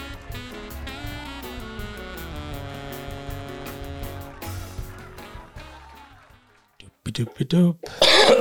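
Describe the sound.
A few harsh coughs and throat clearing from a person with a sore throat, short loud bursts that come in quick succession after a stretch of music fades out.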